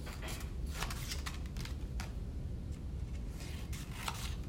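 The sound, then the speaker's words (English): Scissors cut folded paper from the corner toward the center in a string of crisp snips over a steady low rumble. “And I'm going to cut down from the corner, almost to the center. I'm gonna leave maybe half an inch to an inch in the center. Going to do that on each fold.”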